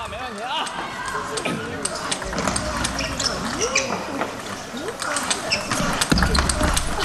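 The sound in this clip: A table tennis ball is struck back and forth during a rally in a professional women's match. Many sharp, light clicks come at an irregular pace beneath steady commentary.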